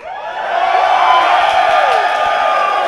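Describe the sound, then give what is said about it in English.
Crowd noise at a live Hotline League event in St. Louis: a loud, steady din of many voices that swells in the first half second and then holds level throughout. “There's a large crowd here.”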